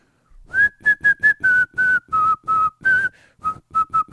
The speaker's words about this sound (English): the first line is always really strong, and then my whistling just falls apart from that point